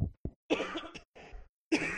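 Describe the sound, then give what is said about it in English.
Coughing from a woman during casual conversation, a few harsh, raspy bursts of varying length separated by short silences, fairly loud with no talk over them. “oh, God, return of the cough. Revenge of the cough.”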